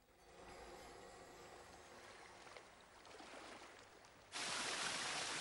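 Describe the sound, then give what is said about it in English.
A wall of water from an overhang splashes down into an empty pool. A quiet wash of water gives way to a sudden, loud, broad rush that continues to the end. “A wall of water splashes down into an empty pool from an overhang.”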